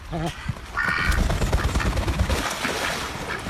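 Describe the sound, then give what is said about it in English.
Two Welsh Harlequin ducks quacking: a few short, nasal quacks early on, followed by continuous rough, noisy background sound. “That's the sound of Pid and Pod, who are two Welsh Harlequin ducks that currently live in Scarborough.”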